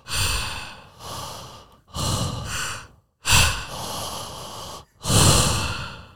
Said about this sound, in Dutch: als wij gewoon ademen, doe eens